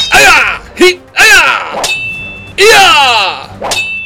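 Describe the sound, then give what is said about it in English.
Swords clash in a furious fight between a Ninja Turtle and a Power Ranger: several sharp metallic clangs and swishing blade strikes. Some leave bright ringing tones that hang briefly before the next blow. “Leo and the Red Ranger engaged in a furious sword fight.”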